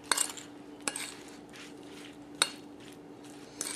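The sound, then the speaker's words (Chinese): A utensil stirs cornstarch into sugared pear pieces in a bowl, making soft, quiet scraping broken by a few sharp clinks against the bowl. “我哋咧就落少少鷹粟粉，再撈勻佢，”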